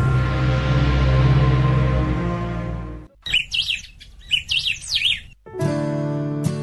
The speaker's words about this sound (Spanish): El canto de aves autóctonas te indica el paso del tiempo en Estación Zafiro.